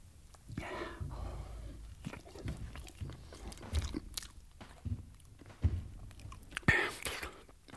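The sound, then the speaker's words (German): Greedy biting and chewing into food, a few crunchy bites standing out over steady wet mastication, fairly faint and close, with no clear voices. “Lässt die Schale auf den Boden fallen, beißt gierig ab.”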